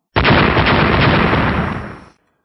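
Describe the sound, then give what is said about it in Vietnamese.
Explosion effect as three magic artifacts strike a grey cloud and shatter: a loud, dense roar of broad noise that holds for about two seconds, fades slightly, then stops. “Ba kiện tiên khí va chạm một cái vào cái đám mây xám kia, lập tức vỡ ra, hóa thành ba chùm sáng, một ngân hai hắc.”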